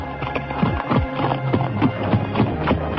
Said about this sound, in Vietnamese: Hai người lặng lẽ cưỡi ngựa sống nhau mà đi